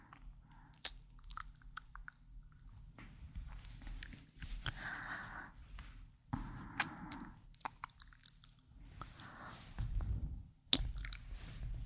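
Soft, wet mouth sounds of someone pretending to taste a listener's ear: faint, irregular chewing, nibbling and squishy clicks, with brief louder bursts scattered over about twelve seconds, no talk.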